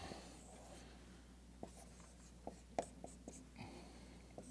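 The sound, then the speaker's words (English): A pen draws a straight line on paper, a faint scratching with a few small taps and scrapes over quiet background hiss. “You don't need to be Betty King to do it. You need to draw a straight line.”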